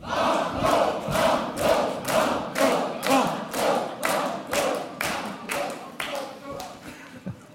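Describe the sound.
A game show studio audience in Montpellier chants and claps in a loud rhythmic pattern of many regular bursts, each a shout from the crowd. The bursts taper off slightly toward the end.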